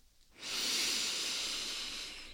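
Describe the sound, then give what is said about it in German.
A deep breath is drawn in through the nose during a yoga practice: a soft, airy hiss swells quickly and holds steady for about two seconds, with no talk. “nimm mal einen genüsslichen tiefen Atemzug über die Nase”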